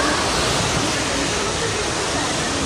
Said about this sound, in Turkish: Özellikle Demre ilçesinde derelerin taşması sonucu onlarca evi su bastı.